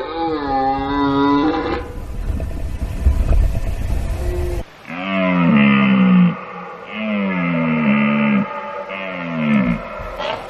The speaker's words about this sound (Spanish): Fíjate este suena la vida. Qué maravilloso es. La berrea en todo su esplendor.